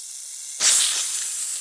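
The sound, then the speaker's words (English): A snake gives one sudden, sharp hiss after a brief quiet stretch. The breathy, high hiss holds steady and fades slightly until the end. “Where's the snake? It's over there.”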